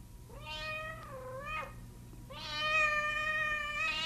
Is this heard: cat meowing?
yes